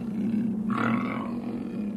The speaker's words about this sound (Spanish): varios ojos me escudriñaban detrás de los matojos, y un gruñido de fiera me asaltó.